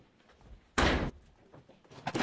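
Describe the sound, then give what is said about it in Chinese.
A door being opened at home sounds as one loud, broad burst lasting about a third of a second, with quiet rustling before and after. “来开门。”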